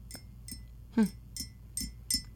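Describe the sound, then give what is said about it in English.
Light clinks of stirring a pumpkin spice drink in a glass: a few quiet, irregular taps and chinks, with one slightly louder strike near the middle. “Do you want me to stir yours as well? Yeah. Okay. There.”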